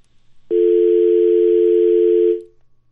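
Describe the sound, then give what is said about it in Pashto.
A dial tone follows a phone line being cut off: one steady, loud tone starts abruptly, holds for about two seconds, then fades out, with near silence before and after. “بیا لاین قطع شو.”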